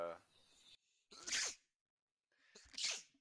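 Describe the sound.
Two sharp sneezes burst out after a moment of talk, separated by a short silence.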